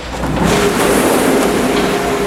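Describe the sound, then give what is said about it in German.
Engine of a tipper truck loaded with apples, manoeuvring backward at a cider works toward a silo pit: a steady, loud motor rumble with broad noise, holding an even level throughout. “Der Chauffeur steuert seinen Lastwagen hinter sich vor das grosse Loch im Boden. Er steigt aus und tut die Klappe vom Kipper auf.”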